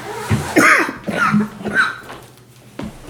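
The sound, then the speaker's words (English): Someone coughs into a microphone in a few rough, uneven bursts. Some of the coughs are partly voiced, with short pauses between them, and the sound is close and fairly loud. “I'm going to cough in the microphone.”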